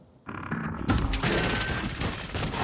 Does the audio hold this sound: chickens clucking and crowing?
no

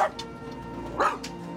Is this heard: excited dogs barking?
yes

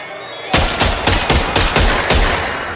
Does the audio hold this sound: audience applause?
no

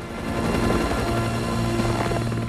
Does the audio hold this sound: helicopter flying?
yes

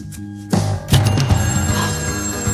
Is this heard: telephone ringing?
yes

